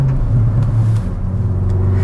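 A car engine as the driver lifts off the throttle: a loud, steady, low droning rumble that holds its tone throughout, with no voices over it.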